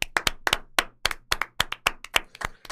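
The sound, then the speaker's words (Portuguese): Hand clapping, many sharp, crisp claps at a quick and fairly steady rhythm, heard on their own with no talk. “Você aí do outro lado da tela bate palma também. Não, tá todo mundo batendo palma.”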